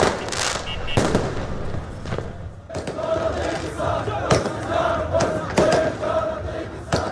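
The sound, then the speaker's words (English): A crowd celebrates in the streets of Baghdad on Wednesday night, marking the declared Sovereignty Day after the withdrawal of foreign forces. Continuous crowd noise and shouting carry throughout, broken by several sharp, loud bangs like fireworks or celebratory gunfire. “And here are the sounds of celebrations in the capital, Baghdad, on Wednesday night.”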